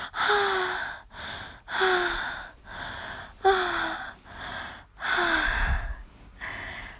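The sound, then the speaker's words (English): Heavy, out-of-breath panting after intense sex: many loud, rhythmic gasping breaths, several voiced with a short falling moan, with no speech between them. “Oh, oh, we're both so out of breath.”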